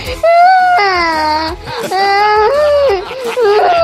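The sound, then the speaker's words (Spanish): Child acting out crying, the voice imitating sobs with several drawn-out, wavering wails separated by short gasping breaks, loud and high-pitched throughout. “En teatro me han enseñado a llorar.”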